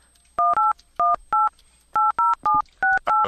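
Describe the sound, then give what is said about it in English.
Touch-tone telephone keypad dialing a friend's number: nine crisp, clear tones in short pairs and a trio, separated by brief pauses, with no talking. “We are dialing Josh.”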